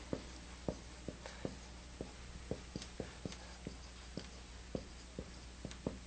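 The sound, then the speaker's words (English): Writing on a board during a lecture: many short, sharp taps and scratches in an irregular rhythm, fairly faint, with no voices. “Let me write this up on the board.”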